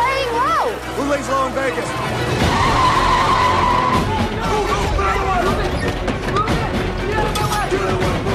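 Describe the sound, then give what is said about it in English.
Tires screech and engines roar as black SUVs race after a taxi in a car chase. Wavering squeals of skidding rubber rise and fall over a continuous loud engine and road noise. “Now in the black SUVs, they race after Jack's taxi.”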